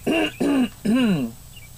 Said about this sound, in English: I hope that, the clearing of my throat was heard on the podcast.